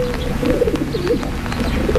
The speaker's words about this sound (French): Autre animal qu'on rencontre souvent en ville, c'est le pigeon.